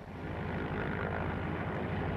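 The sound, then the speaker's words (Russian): Seaplane taking off, its aircraft engine a dense, steady roar with a low propeller throb that swells slightly at the start, then holds loud throughout. “Лунин понял, что гидросамолет погибнет, если сейчас же не взлетит. И гидросамолет взлетел.”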